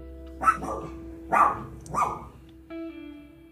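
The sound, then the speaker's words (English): A female dog barks in a few sharp, harmonic yelps spaced roughly a second apart, each bark loud and clear with quiet gaps between and no talk over them. “That's my dog. We're just gonna let her bark because there's no stopping craziness.”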